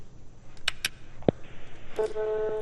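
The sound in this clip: Telephone tones as a caller is connected on a radio call-in show: a few short beeps, then a steady, buzzing, harmonic-rich tone that holds to the end.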